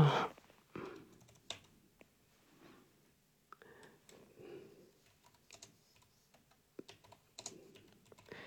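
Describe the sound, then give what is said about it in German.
Typing on a computer keyboard: many quick, irregular key clicks tapping away in uneven bursts, some louder than others, with no voices. “Sie hören mich jetzt tippen”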